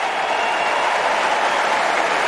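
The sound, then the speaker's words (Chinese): Crowd applause for a tennis player after a Wimbledon match: a dense, steady roar of clapping holds at an even level throughout, with no talk. “把掌声送给林德科内西。”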